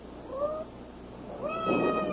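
A cat meows twice: a short, mid-pitched cry first, then a longer, louder meow after a brief pause, with no one speaking.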